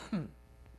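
A single short throat clear, loosening phlegm: one brief, low, rasping burst that quickly fades into quiet.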